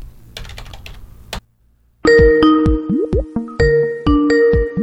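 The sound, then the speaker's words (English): Keyboard typing clicks come first, then a brief silence, then a Skype call dials and rings with bright, repeating melodic tones and chimes in a stepped pattern. “He's got a Skype number. Okay, I'll dial him up.”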